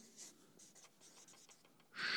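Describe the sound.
Handwriting with a pen on paper: a run of faint, short scratchy strokes, then a longer and louder scratch at the end.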